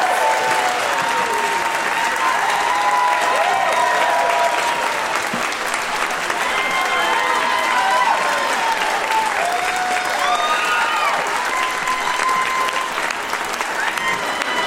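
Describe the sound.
Loud, sustained studio audience applause greets a guest on a talk show, full and even throughout, with scattered whoops and cheers rising above the clapping and voices mixed in.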